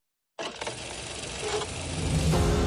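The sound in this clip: Car engine revving in an ad for a tuning show of movie-inspired cars. The roar starts abruptly after silence and grows steadily louder and fuller.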